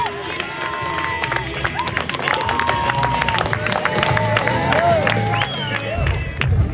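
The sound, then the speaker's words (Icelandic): Crowd applauding and cheering at the finish line of a running race, dense clapping with whistles and shouts throughout, while a voice speaks over the public address and footsteps patter underneath. “Klappið vel fyrir Heyrún og lokastrættinu.”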